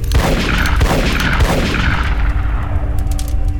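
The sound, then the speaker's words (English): A revolver is fired repeatedly, a few heavy booming blasts in quick succession within dense, rumbling noise that thins out toward the end. “He doesn't hold back, firing the rest of the revolver into Mama.”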